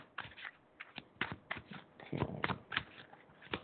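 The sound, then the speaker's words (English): Fairy oracle cards being shuffled by hand: many soft, quick flicking and riffling bursts in an uneven rhythm, faint and with no talk. “Some fairy cards here.”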